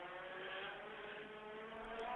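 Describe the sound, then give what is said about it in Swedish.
Race car engine on a track while cars lap to cool or warm their brakes, a faint, steady buzzing drone that hums evenly throughout without a distinct surge. “Här är någon som åker. Några åker väl runt och kyler bromsar eller om de värmer.”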